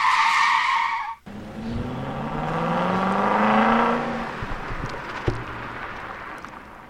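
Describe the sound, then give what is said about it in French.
Cars on a race circuit during a free practice session at an event run like a grand prix, as participants test their vehicles. A brief high squeal opens, then a sustained engine roar with shifting pitch fades after about four seconds. “Et c'est libre, c'est un petit moment où les participants testent leurs véhicules.”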